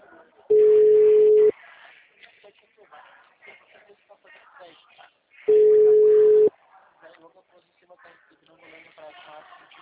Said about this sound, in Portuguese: a ligação caiu? Alô? Alô? Tá me ouvindo?